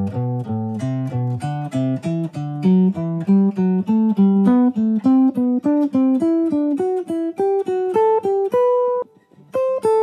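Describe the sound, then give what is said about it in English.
A scale played in thirds on an instrument, with many short, evenly spaced notes stepping upward as pairs of pitches alternate in a steady rhythm, played alone. “We could play in thirds, which you probably already know. It sounds like this.”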